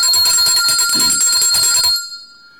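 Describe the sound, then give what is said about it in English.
A bell is rung loudly in rapid repeated strokes for about two seconds, with bright, shimmering metallic overtones. The ringing then fades away into a lingering high tone. “Now, before I say anything else, I'm going to ring the bell”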